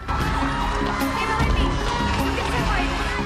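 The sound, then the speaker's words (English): Crowd of children screaming and shouting as they run out of a school during a fire, a dense, continuous din of overlapping high voices. “The children run screaming out of the school.”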